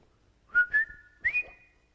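A person whistles a TV show theme song. Four clear notes: two quick ones in a row, a pause, then two more that rise higher, with the last held as a long, steady tone.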